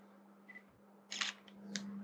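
A camera shutter fires while photos are taken during home cooking. A few faint, crisp clicks, the strongest a short burst near the middle, sit over a low steady hum.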